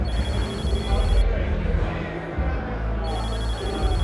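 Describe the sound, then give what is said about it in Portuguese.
A telephone rings with an incoming call: a steady, high electronic ringing tone sounds at the start, breaks off, then resumes near the end over a dense, noisy background. “eu preciso atender essa chamada.”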